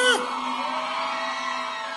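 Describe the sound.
A crowd shouts at a forró concert: a brief whooping yell opens, then a steady, sustained roar of voices continues.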